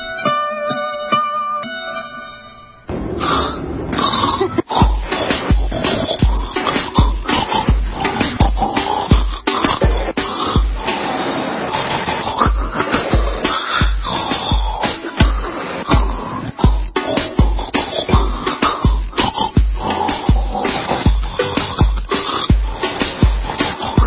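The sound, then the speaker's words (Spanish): Recordings of a man snoring, edited and mixed into a rhythmic piece: a short tonal opening, then loud, rasping snores over a steady, regular low thumping beat that runs to the end. “Estuve filmando a mi marido cada vez que roncaba por 4 años. Mezclándolo de una forma especial, con la ayuda de mi sobrino, salió esto.”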